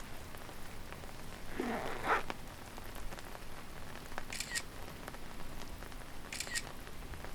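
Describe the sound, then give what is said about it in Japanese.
Smartphone camera shutter clicks sound twice, brief and faint, while photographing hydrangeas on a rainy day, with soft steady rain hissing beneath and no talk. “あ、写真撮っとこう。”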